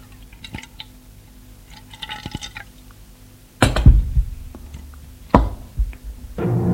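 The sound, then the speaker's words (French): Wine is poured into a glass. A few light glassy clinks come first, then two splashing bursts of liquid and a steady, building pour at the end. “Il se sert un verre de vin.”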